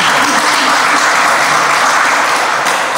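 Loud, steady applause from a crowd, continuous clapping filling all three seconds without a break.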